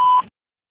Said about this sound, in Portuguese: Oi, Mário, a ligação caiu. Por favor, deixe sua mensagem após o sinal.